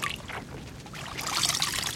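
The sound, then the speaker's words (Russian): Water pours and sloshes as blankets are dipped and soaked beside a raft, a steady wet trickling that grows fuller and louder in the second half. “Вот что, давай опустим одеяло в воду, чтобы они хорошенько намокли.”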